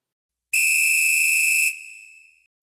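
A referee's whistle gives one long, shrill blast to start a football match, held steady for over a second before trailing off, with nothing else heard.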